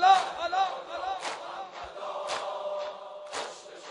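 A concert crowd shouts and cheers in several loud bursts, with sustained yelling between the peaks.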